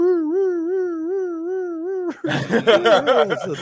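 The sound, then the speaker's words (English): A voice imitates a roar heard in a cemetery as a sustained, wavering, howl-like tone lasting about two seconds. People then talk over each other. “It did the roar sound like this.”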